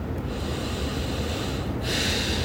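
A big deep breath, heard as a loud, continuous breathy rush of air that lasts the whole short moment.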